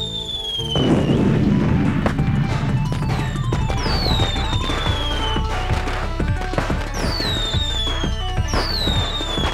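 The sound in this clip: Fireworks rockets launching, with many whistling streaks falling in pitch over a dense run of crackling pops and bangs that carries on loudly for the whole stretch.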